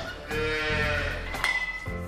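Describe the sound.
Cows on a farm near Clonakilty during calving season give a long, low, drawn-out moo, then a further tonal call. Both are moderately loud over steady background noise.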